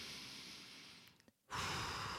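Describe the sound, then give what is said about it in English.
A deep breath taken during a guided relaxation exercise: a long breathy rush of air, a brief silent pause, then a stronger, fuller breathy rush, heard alone with no talk. “sit back and relax, put your feet on the floor, take a deep breath and just relax. Let yourself breathe.”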